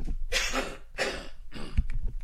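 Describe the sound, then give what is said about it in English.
A person coughing a few times in a row, with harsh, breathy bursts separated by short gaps and no speech. “Sorry, I'm going to have to take the headset off and have a little cough.”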